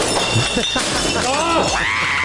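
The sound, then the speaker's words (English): Glass smashing in a rage room: one sharp shattering crash cuts through amid people talking and shouting. “That was glass.”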